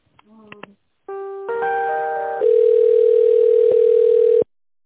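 Telephone line tones during a call transfer: a few brief clicks and beeps, then a steady electronic tone that thickens in two steps and holds for about three seconds before cutting off.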